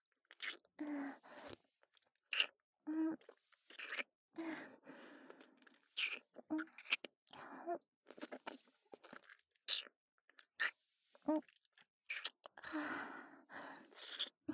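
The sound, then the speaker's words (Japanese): Crunching and chewing of food, heard as many short, crisp bursts in an uneven rhythm, with soft breathy sighs between bites and no talk. “ずっとずっとこうやって食べてたいの。”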